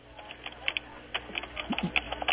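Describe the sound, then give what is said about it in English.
Computer keyboard typing: many quick, irregular key clicks at moderate loudness, with a few firmer strikes scattered through and no voices. “Type everything we're saying right now.”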